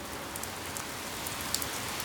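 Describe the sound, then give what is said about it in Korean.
Light rain pattering on a surface as drops begin to fall, a soft, even patter with a few sharper drops standing out, steady throughout with no voices. “동시에 그 위로 빗방울이 하나둘 떨어졌다.”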